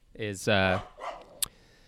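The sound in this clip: A dog gives a couple of short, tonal barks, fairly quiet, followed by softer scuffling noise and a brief sharp tap.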